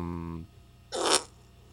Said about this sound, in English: You farting? It was here. This is a common fart.